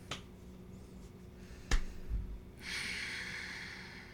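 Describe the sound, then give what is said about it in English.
A deep cleansing breath, heard as a faint, airy exhale whose steady hiss lasts more than a second, coming after a sharp click and a short lull. “Deep breath. Yeah. Cleansing breath.”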